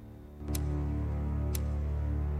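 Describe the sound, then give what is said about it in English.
A clock ticks on the way to 8 a.m.: two sharp, crisp ticks spaced about a second apart, standing out over a steady, low, humming drone. “A clock ticks up to 8 a.m.”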